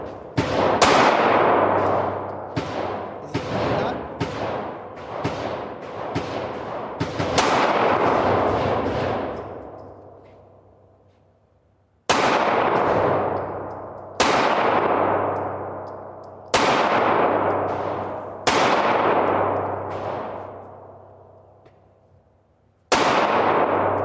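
Gunshots from a firearm with a red dot sight fired at a target: a quick run of loud cracks, then widely spaced single shots, each leaving a long ringing decay.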